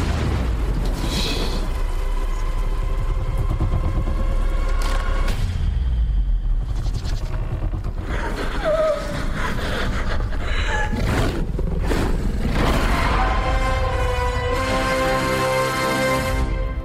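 Jurassic World movie trailer audio, loud and continuous: repeated deep booms and explosion-like bursts crash over sustained, dense tonal music that swells and shifts across the whole stretch.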